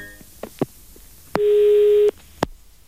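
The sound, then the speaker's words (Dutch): Telephone call tones: a single steady tone of under a second, framed by a few sharp clicks of a handset before and after. “Gaat Jacques Plafond nu weer eens bellen?”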